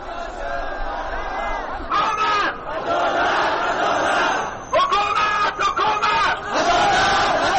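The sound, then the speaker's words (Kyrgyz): Thousands of Hazara protesters shout for justice in the streets of Kabul, a loud, continuous roar of chanting voices broken by a few short pauses. “Колдоруна өкмөткө каршы ар кандай жазууларды көтөрүп алган миңдеген хазарлар бүгүн Кабулдун көчөлөрүндө адилеттик, адилеттик, бизге адилеттик керек деп кыйкырып жүрүштү.”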